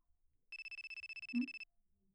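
Mobile phone ringtone for an incoming call: a rapid train of high-pitched electronic beeps repeats for about a second, quiet and alone, then stops.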